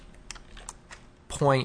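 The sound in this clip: Typing on a computer keyboard during a software tutorial: a few sparse, crisp key clicks, then a voice begins talking.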